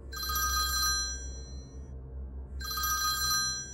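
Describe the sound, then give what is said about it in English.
A telephone ringing: two bursts of bright, rapid bell trills separated by a short silent gap, loud over a steady low hum. “when the phone rang once more.”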